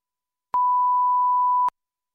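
Answering machine beep: a single steady electronic tone lasting just over a second, pure and mid-pitched, with clean starts and stops and silence on either side.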